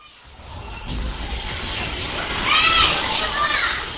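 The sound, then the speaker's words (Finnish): Many children play together in a pioneer house in Shanghai, doing circle games. Their voices form a loud, continuous babble of chatter and shouts that swells toward the end. “Lapset tuntuvat täyttävän talon kokonaan, mutta touhua riittää kaikille. Leikitään piirileikkiä ja lauletaan.”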